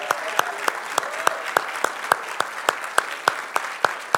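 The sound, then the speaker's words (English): Audience applause honouring veterans as they stand, a continuous crowd clap cut through by sharp, evenly spaced louder claps that keep a brisk, regular beat throughout. “Could you stand up, and let's just give a hand to all our veterans in the house.”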